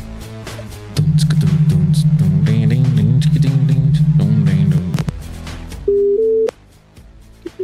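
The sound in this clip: A telephone call tone: a loud, steady electronic hum lasting almost four seconds over layered sound, then after a pause a short, higher two-step tone, with no talking.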